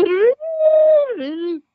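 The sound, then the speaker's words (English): A man's voice imitates an elk bugle call, the kind used by elk hunters. A rising tone leads into a long, high, sustained note, which then drops to a lower held note. “So elk callers, elk hunters come out here and they go,”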